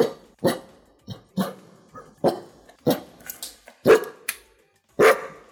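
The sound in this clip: A dog barks in many sharp, irregular bursts, some full and loud and others short and softer, with brief quiet gaps between them.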